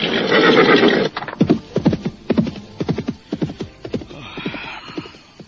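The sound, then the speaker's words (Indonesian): A horse being ridden whinnies loudly for about a second, then its hooves clip-clop in a quick, uneven rhythm of many sharp strikes, with no voices. “Saya tidak senang melihat Tuan berkuda bersama Tuan Putri Tunggadewi. Hiya, hiya, hiya!”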